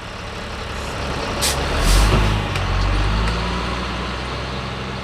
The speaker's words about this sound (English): That's the sound of a dump truck unloading a bed full of soil excavated from the new Benchlands housing development.